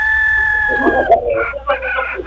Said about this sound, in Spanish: ¿se oyen gallos? ¿Tiene gallos? ¿Usted es gallera, oiga? No. Mira, ahí está el gallo.